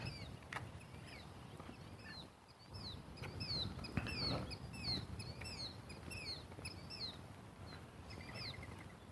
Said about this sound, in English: Killdeers out in the field.